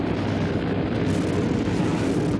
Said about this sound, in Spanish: acciona las palancas y el timón, haciendo que la avioneta avance hasta colocarse en la pista.